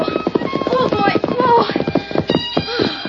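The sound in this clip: A pony galloping across a mesa, its hooves clip-clopping in a fast, uneven run of many hoof beats that keep a loud, busy rhythm throughout.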